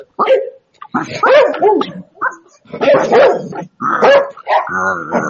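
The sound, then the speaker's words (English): A human voice imitates a dog, giving many loud, rough barks and yips in quick, uneven bursts. Short pauses separate the bursts, and the last one is drawn out and whining. “That's my dog barking.”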